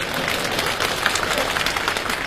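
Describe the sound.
Audience applause at a live comedy performance: a dense, steady wash of many hands clapping that holds at an even loudness for the whole clip, with no talk over it.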